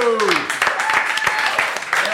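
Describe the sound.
Audience applause welcoming a two-piece band onto the stage, steady dense clapping with a voice calling out over it at the start.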